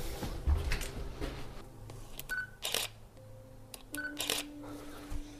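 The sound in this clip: Two crisp camera shutter clicks as a photo is taken of a troll figure made of mold. Each is a short mechanical snap, with faint handling rustle in between.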